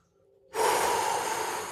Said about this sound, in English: Focus on your breathing. Four counts in, hold it for four counts,